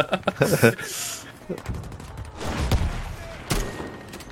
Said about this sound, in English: Shooting at me.